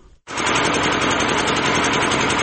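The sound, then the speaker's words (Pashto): An old electricity generator runs in a market, starting after a moment of quiet and then holding a loud, steady, buzzing engine drone with no pause. “دا د صبریو ولسوالۍ اړوند یعقوبیو بازار کې د برېښنا یو پخوانی جنراتور دی”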